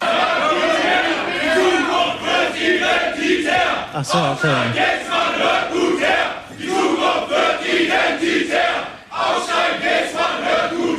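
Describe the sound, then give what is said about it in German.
Far-right activists loudly chanting slogans in unison to disrupt a panel event, a massed crowd of shouting voices in rhythmic bursts with brief dips between phrases, loud throughout. “Margot Käßmann war auch zu Gast und dann gab es auf einmal laute Rufe.”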